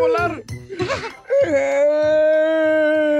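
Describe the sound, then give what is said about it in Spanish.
A person crying, a few short broken sobbing bursts giving way to a long, sustained, wavering wail that holds a steady tone to the end. “¿Por qué llora? Oh, no. ¿Qué pasó,”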